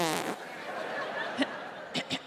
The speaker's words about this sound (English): Farting is not amorphous, it's specific.